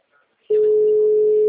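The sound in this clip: Telephone line tone after a dropped call: a single steady, mid-pitched electronic tone that holds for about a second, preceded by a faint brief noise.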